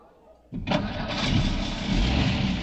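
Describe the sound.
A car engine starts after a quiet moment, then settles into a steady running hum as the car drives on.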